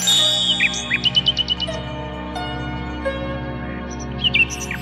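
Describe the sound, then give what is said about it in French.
A nightingale sings in bright, high chirps and quick trilled runs, delivered in short bursts over a soft, sustained low background. “Alors le rossignol chanta pendant toute la nuit.”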